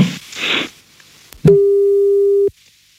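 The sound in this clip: An outgoing telephone call's ringing tone: a single steady, mid-pitched electronic tone holding for about one second, preceded by a few brief, soft noisy rustles.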